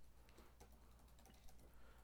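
Quick typing on a computer keyboard, many light overlapping key clicks in a soft, faint, continuous patter with no talk over it.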